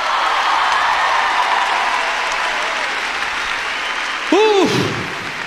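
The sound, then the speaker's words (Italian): Sustained audience applause at a competition show as a tribute to a departing figure. A steady, dense wash of clapping gradually eases, with a brief voiced cheer rising near the end. “ancora un applauso a Super Mario Garruccio.”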